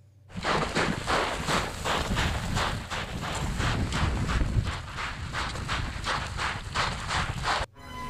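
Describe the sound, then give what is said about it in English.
Running footsteps of a person heading down a hill on a mountain summit trip, a steady fast rhythm of many crunching strides with wind noise throughout, stopping abruptly near the end. “Let me just play a real quick a big sound bite from that, from one of the intros of his. You can hear him running down the hill.”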